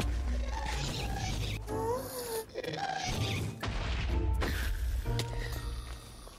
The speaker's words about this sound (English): I really wanted to hit this ghast with my sword for some reason. It was like he was asking me to. I just couldn't help myself.